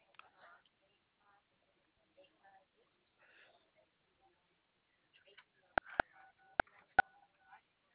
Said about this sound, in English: Can you stop dialing my ear?